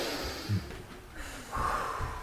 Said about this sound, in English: Now, everybody needs to take a breath.